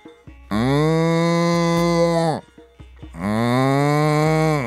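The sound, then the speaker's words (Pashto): A cow lets out two long, loud moos, each a low, rich, droning call of about two seconds, separated by a short pause. “خو غوا یوازې نارې کړې،”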